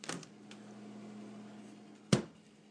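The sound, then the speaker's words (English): A kitchen refrigerator runs with a faint, steady low hum throughout, broken by a light click at the start and a sharper knock near the end. “you can hear it running. We got our fridge”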